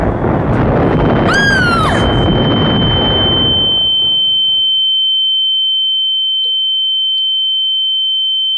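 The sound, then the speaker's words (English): Bombs explode in a loud, broad blast that rumbles and slowly fades over several seconds. Brief whistling tones sweep downward early on, and a steady, high ringing tone lingers long after the blast dies away. “Calm down, you're not really Sota. The bombs can't touch you.”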